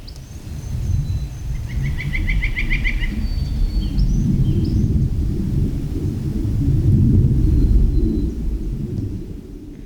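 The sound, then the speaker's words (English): Birdsong at Lawn Lake in Rocky Mountain National Park sits over a steady, wind-like low rumble from aircraft in the sky above. The rumble swells later on, while high chirps and an early rapid trill sound over it. “And of course, you hear the birds there. And what sounds maybe like wind is actually aircraft in”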